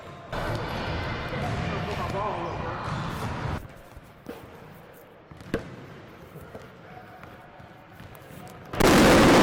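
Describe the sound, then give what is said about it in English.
A slightly flat ball bounces with a few dull, soft thuds spaced irregularly, following a stretch of people talking, with a louder burst of noise at the end. “Ooh, this ball kind of flat. I don't like the way this ball needs some air.”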